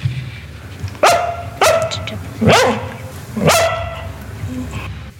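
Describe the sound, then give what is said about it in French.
A Lapponian herder dog barks four times. The barks are sharp and fairly loud, about a second apart, and each has a short ringing tail over a low, steady background noise. “Il s'appelle Meiko parce que c'est un chien de Laponie”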